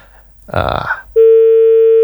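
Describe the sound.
A telephone line tone sounds during a failed call connection: a brief voice-like burst, then a loud, steady, single-pitch tone that holds unbroken to the end.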